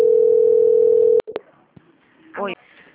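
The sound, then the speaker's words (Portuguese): A steady telephone tone sounds during a call transfer for about a second, then cuts off into a couple of sharp clicks and brief faint line noise. “ligação vai ficar muda rapidinho, só um momento. Transferência.”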